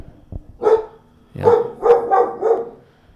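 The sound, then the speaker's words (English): A female guard dog barks at night at a neighbor arriving: one sharp bark, then a quick run of four more, loud and close together. “That's the nightly guard dog on a Friday night. Frankie. We must have a... intruder alert. Yeah, it's someone. Oh, the neighbor came rolling in, so she's doing her job.”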